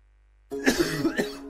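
A person coughs several times in quick succession, harsh bursts of the persistent kind linked to tuberculosis, heard alone with no talk.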